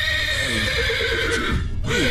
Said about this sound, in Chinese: 来，我来看看这个咬人的马。